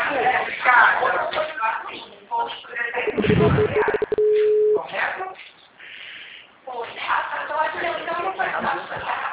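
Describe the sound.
After a dropped phone call, a steady mid-pitched telephone tone sounds for about a second and a half, preceded by a few clicks, with people talking before and after it.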